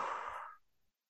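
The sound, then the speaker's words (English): A single airy breath during a slow guided breathing exercise, soft and steady for under a second before it fades into silence. “Inhale, exhale,”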